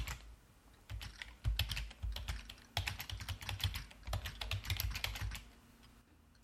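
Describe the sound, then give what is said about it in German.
Computer keyboard typing as a password is entered: many rapid, crisp key clicks in uneven bursts, running steadily and alone throughout before stopping near the end. “Jetzt müssen wir ein ursprünglich vorgegebenes Passwort eingeben.”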